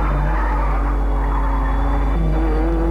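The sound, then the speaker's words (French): A car engine drones steadily while tires squeal in a long, continuous skid, loud and unbroken throughout. “Mais hélas, pour le pauvre Henri, il continue à conduire les yeux bandés.”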